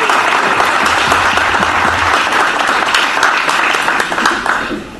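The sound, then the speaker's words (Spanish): Audience applause at a panel event, given in thanks to an organizer and her team. The clapping is dense and loud, stays steady throughout and thins slightly at the very end. “muchas gracias y un gran aplauso para ti, Karen, y para todo el equipo.”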